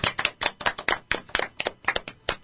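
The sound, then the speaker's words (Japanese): A few people clap after someone finishes talking about their first year at university. The hand claps are sharp and distinct but uneven, with many separate slaps in a loose, irregular rhythm and no voices over them. “はい、 拍手。”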